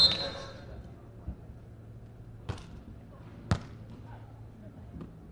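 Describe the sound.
A volleyball being served in a women's match between city teams from Nanjing and Hangzhou: a few sharp ball thuds and smacks ring out over a low, steady background murmur.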